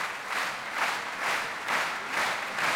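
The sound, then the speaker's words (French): Audience applause calls two pianists back for an encore at La Roque d'Anthéron, a soft, dense clapping that swells and fades in a steady, even pulse. “Vous l'entendez, Ludmila Bernskaya et Arthur Ancel sont rappelés par le public de la Roque d'Anthéron. Ils reviennent sur scène.”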